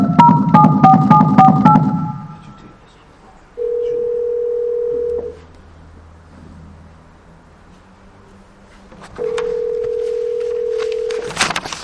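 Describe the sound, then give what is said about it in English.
Telephone redialing tones: a quick burst of touch-tone dialing beeps, then two long, steady, identical ringing tones separated by quiet gaps, ending in a brief crackle. “سأتصل عليك يا شيخ مرة ثانية إن شاء الله أعيد الاتصال إن شاء الله”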